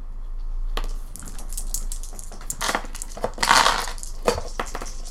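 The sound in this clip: Dice clatter as they are rolled for a tabletop role-playing game, giving a quick burst of sharp clicks and knocks that scatter, rattle and settle. No voices are heard.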